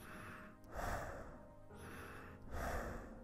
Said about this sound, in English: Inhale through your nose or mouth into your belly and exhale without any additional effort. Just let your chest fall. It sounds like this.